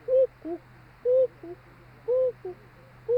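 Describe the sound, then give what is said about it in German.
An owl gives repeated two-note calls in the manner of a Black Forest cuckoo clock. Each call is a soft, higher hoot followed by a lower, shorter one. Three full pairs sound and a fourth begins, alone over a low steady hum. “mit der Stimme einer Schwarzwälder Kuckucksuhr. Das sind so ihre Schwänke. Sie ruft 7-mal Kuckuck”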